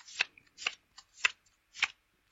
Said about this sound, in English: I'll deal you 5 cards each from the dinosaurs pack.